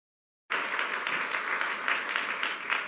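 A church audience applauds a preacher being welcomed to the pulpit during a morning service, the clapping starting abruptly after a moment of silence and continuing as a steady, even patter.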